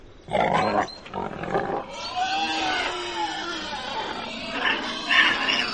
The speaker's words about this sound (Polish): Wówczas samce dzików, odyńce, wydają znacznie głośniejsze chrząkania zwane rchtaniem.